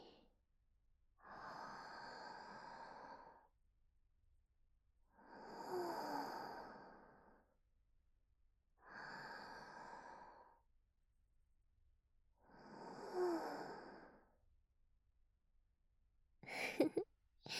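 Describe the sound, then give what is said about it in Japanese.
Slow, deep breathing during a guided relaxation session with aroma burning: four long, soft exhalations of about two seconds each, separated by quiet pauses, then a brief sharp intake of breath at the end. “私の呼吸に合わせて。”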